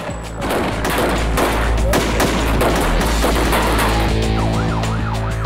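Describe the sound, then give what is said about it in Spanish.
Gunfire from heavily armed kidnappers firing on two police officers during a raid: a dense, loud, continuous barrage of overlapping shots, with a wavering siren-like wail rising near the end. “Los secuestradores, fuertemente armados, solo ven a dos policías y disparan.”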